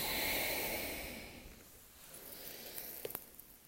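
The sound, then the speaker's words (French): A slow, soft exhale during a seated forward-bend yoga stretch, airy and fairly loud at first, then fading away over about a second and a half. A few faint small clicks follow in the near silence. “le grand étirement de l'ouest pour 5 respirations. À chaque inspire, on allonge le dos et à chaque expire, on descend, ça fait 1.”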